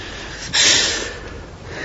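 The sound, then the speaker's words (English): A person breathes in and then exhales in one audible breath. It starts as a sudden breathy rush and then fades gradually into a soft, airy hiss. “Do the breathing. Hold. Exhale. Gently.”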